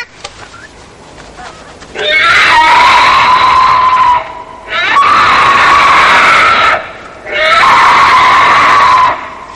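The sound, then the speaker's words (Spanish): A young girl screams three times in a rural Spanish drama: long, loud, sustained, high-pitched shrieks, each lasting about two seconds, separated by brief pauses. “La niña chica, ¿eh? ¿Y una niña puede gritar así?”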